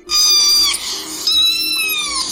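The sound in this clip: Two drawn-out cat meows, loud and alone, each a bright, tonal cry, the second one longer and gently sinking in pitch toward its end.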